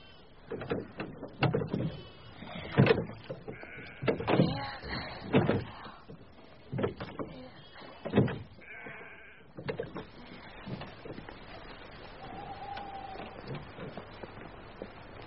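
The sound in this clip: Sheep bleat in a meadow, with many loud, wavering bleats coming at irregular intervals and then a quieter stretch with only faint calls.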